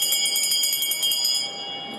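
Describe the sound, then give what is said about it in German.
A handbell rings to open a joint session of the Swiss federal parliament, shaken rapidly with a bright, high, loud jangle that holds steady, then drops in level toward the end. “Erik Nussbaumer, der neue Nationalratspräsident, hat mit der Glocke geläutet”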